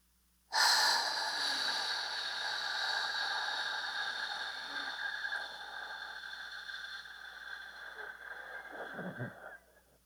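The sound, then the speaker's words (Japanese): Breathing exercise with a five-second inhale, one-second hold and fifteen-second exhale, heard as one long, slow, airy breath that begins abruptly and runs for about nine seconds, gradually softening toward the end. “5秒吸って、1秒止める。15秒吐く。”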